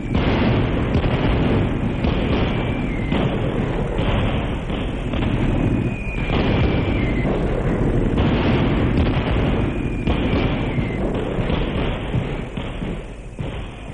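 Artillery fire and explosions in a battle scene of Egyptian troops crossing the canal, a loud continuous roar of blasts and deep thuds, with a few whistling tones gliding slightly downward over the din, and no voices.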